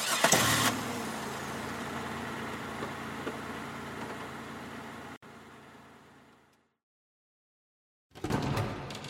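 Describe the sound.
A car engine starts with a short, loud burst, then runs at a steady mid-pitched rumble that gradually fades away into silence.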